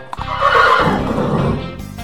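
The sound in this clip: A horse neighs: one loud, shrill whinny that quavers for about a second and a half, then trails off into quieter snorting.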